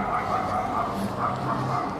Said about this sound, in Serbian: pas koji laje